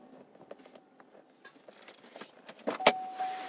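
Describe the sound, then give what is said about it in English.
A car pulls in and parks, heard as a low, quiet rumble with faint scattered clicks, then a short whirring motor near the end like a power window, with no talk. “I'm going to go ahead and pull the car in here.”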